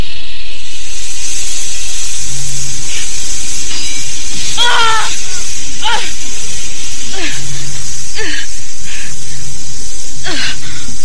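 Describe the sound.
A giant snake hisses in an audio drama effect, a loud, continuous high hiss running through the whole clip, with a voice's strained vocal sounds breaking in at several points.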